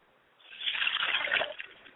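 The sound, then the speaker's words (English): Water is poured out from a glass as a ritual libation: a short splashing trickle that swells and fades over about a second, with no talk. “I pour libations to the north, Ashe. I pour libation to the south, and I say, Ashe.”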